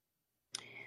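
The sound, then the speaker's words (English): A game controller is set down with a single sharp click, followed by a short, quieter sustained tail of sound after a silent lead-in. “I gotta set the controller down, man. Just set the controller down.”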